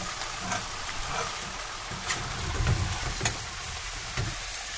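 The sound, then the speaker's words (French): Meat frying in hot oil in a saucepan, browning for a minute or two: a dense, steady sizzle with crackling and sharp scattered pops throughout, heard alone with no talking. “Lorsque l'huile est déjà chaude, ajoutez la viande et faites revenir 1 à 2 minutes.”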